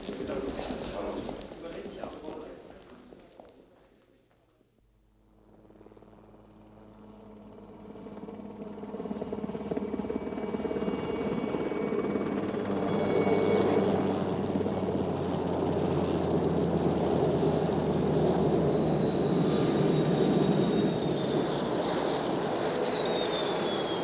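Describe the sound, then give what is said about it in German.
A helicopter's engine drone builds from a brief lull into a loud, sustained whirring whine, with voices speaking over it. “Komm, sei vernünftig, setz dich in deinen Hubschrauber und sieh daheim nach dem Rechten.”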